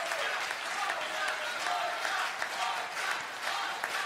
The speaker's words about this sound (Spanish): Molim jedan aplauz za plesače.